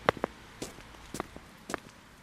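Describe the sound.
Footsteps of people walking a measured 700-metre course while counting steps: a few crisp, fairly faint scuffing steps in an uneven rhythm, with no talk.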